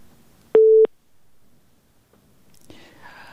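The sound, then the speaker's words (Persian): A busy tone after a phone call is cut off: one short, steady, loud beep at a fixed pitch, then near silence before a soft, whispery voice begins. “تماس ما قطع شد”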